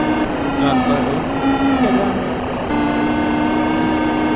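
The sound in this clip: Engine sounds from a motorbike racing video game while overtaking: a loud, continuous synthesized drone with layered buzzing tones at a fairly steady pitch and brief higher swishes.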